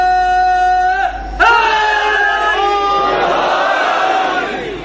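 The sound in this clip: A crowd loudly chants religious slogans such as Allahu Akbar at a religious gathering. Sustained, strongly voiced cries swell into a broad, continuous roar of many voices.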